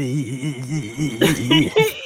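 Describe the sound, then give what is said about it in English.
A voice imitates Louis Armstrong's gravelly singing voice, starting as a low, throaty hum with a wavering pitch and then breaking into a few rougher, scratchier bursts near the end. “Everybody in their right mind has attempted a Louis Armstrong impression at some point. Because all you really have to do is go,”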